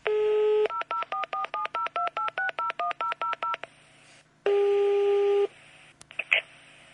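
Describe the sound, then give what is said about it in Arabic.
Telephone dialing a call to a lawyer in Erbil: a steady dial tone, then a quick, even run of many touch-tone keypad beeps, a short pause, one longer ringing tone and a few faint clicks, with no talk. “وهسه راح اتصل بالمحامي آريان صلاح الدين، محامي في غرفة محامي”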